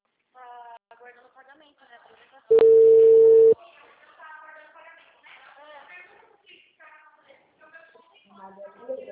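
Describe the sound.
An outgoing phone call sounds one loud, steady ringing tone of about a second, low and even in pitch. People talk before and after it.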